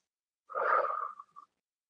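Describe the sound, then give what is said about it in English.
A single deep cleansing exhale during a guided breathing exercise: a breathy out-breath of about a second, fading with a small extra puff at the end, alone in silence. “why don't we take a few deep cleansing breaths together to start? So exhaling everything out.”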